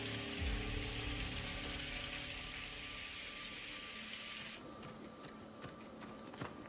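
A shower running: a steady, dense hiss of spraying, splattering water that continues throughout and changes texture partway through, with no voices.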